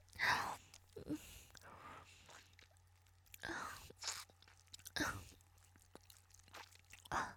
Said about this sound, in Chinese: 老公，太好吃了，可能是这边的特产吧。在咱们家根本没有这么粗这么大的冰棍。